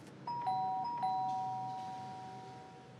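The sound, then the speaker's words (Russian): A doorbell rung by police at a home door: a bright two-note electronic chime sounds twice in quick succession, the second ring overlapping the first, then both tones ring on and slowly fade alone. “Милиция звонит в дверь.”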